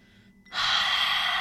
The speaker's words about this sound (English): We're just doing audible exhales. Really pushing out the stale air from the bottom of the lungs. Big exhales.